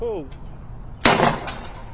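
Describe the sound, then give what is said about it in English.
Gunshots from skeet shooting at a private shooting range at Camp David: a sharp, loud blast followed shortly by a fainter burst, with a brief voice just before. “I didn't hear you. I was skeet shooting, which I do all the time, apparently, according to my press secretary.”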